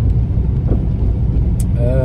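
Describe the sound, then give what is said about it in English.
A car engine drones steadily and loudly through a gear change, with a worn clutch making the gearbox grind. A voice comes in briefly at the end. “The gears again. I think it's time for a new clutch. Either that or I need to go back on the driving course.”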